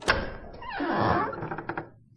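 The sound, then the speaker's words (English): A door opens with a sharp thump, then a rising scraping sweep as it moves, followed by a few light clicks that fade out. “Doors open.”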